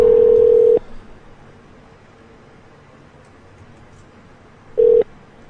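A telephone ringback tone plays while a call goes unanswered. A steady buzzing tone cuts off, a long near-silent gap follows, and then the same tone starts again near the end.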